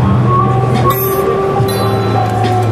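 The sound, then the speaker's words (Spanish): Homemade instrument of ordinary kitchen pots and pans played with wooden spoons, giving a loud, continuous drone of several held ringing pitches rather than separate strikes. “Estamos tocando unas cucharas de madera que van saliendo diferentes notas cada vez que una cuchara golpea.”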